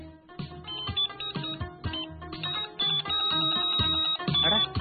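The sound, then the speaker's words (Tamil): A phone ringtone for an incoming call plays alone, with no voices: a bright, tonal melody that repeats its short phrase over and over at a steady, fairly loud level. “Incoming கால் வருதே.”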